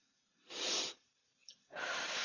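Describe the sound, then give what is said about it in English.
Slow cleansing breaths in and out during a guided relaxation exercise: two soft, airy rushes of breath separated by a pause, with a faint brief sound in the gap. “So let's take that cleansing breath in.”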